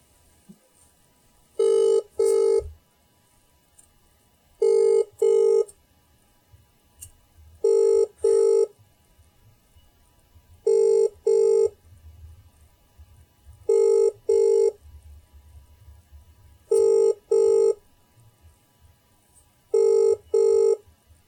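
Telephone ringing on an outgoing prank call: seven evenly spaced double-burst rings, bright and electronic, repeating every few seconds with quiet low background noise between them and no voices.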